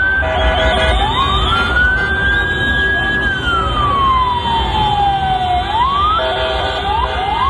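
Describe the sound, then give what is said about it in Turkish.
An ambulance siren wails in traffic gridlocked by street celebrations. The loud, continuous tone slides up, holds, then glides slowly down before breaking into a faster yelping pattern. “Siren sesini duyunca trafiğin önüne atlayan kahraman koşarak yol açtı.”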